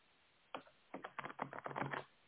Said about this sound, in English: So let me shuffle these cards and see what comes out.